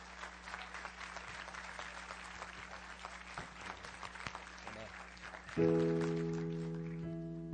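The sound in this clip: A church audience applauds to welcome a first-time guest speaker, giving about five and a half seconds of steady, soft, dense clapping. A sustained keyboard chord then enters and slowly fades.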